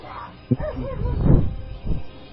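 A small female dog gives a few short yips and whines at moderate loudness, with a brief sharp yelp near the start.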